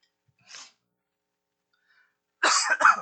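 Coughing: one faint, brief cough, then after a pause a louder, harsher burst of two quick coughs.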